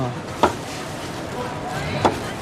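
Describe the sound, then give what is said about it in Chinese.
A knife knocks against a cutting board while slicing food, two sharp, separate chops about a second and a half apart over a steady low background noise. “哎，你这个切有点厚，切有点厚，稍微薄一点。”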